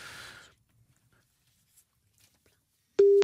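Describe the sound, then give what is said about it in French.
A telephone line tone while placing a call: after a short burst of noise and near silence, a single loud, clean electronic tone starts abruptly and is cut off at the end. “Nous appelons, donc c'est la messagerie.”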